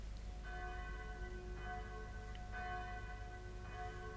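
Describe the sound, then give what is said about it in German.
Town hall bell rung by pulling its rope on a spring morning, a few slow, evenly spaced tolls, faint and ringing over a steady low rumble. “Wer anders zieht am Strang der Rathausglocke als der alte blinde Kapitän Kett? Einer nach dem anderen werden die Schläfer aus dem Schlaf geläutet”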